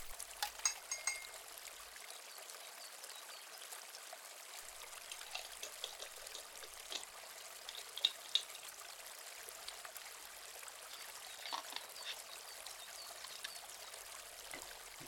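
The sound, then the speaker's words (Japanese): Hot water pours into a cup of dried chrysanthemum flowers and goji berries, a soft, steady trickling splash that runs the whole time without talk. “お湯を注ぎます。ふわっとシギクの香りが漂ってきますね。”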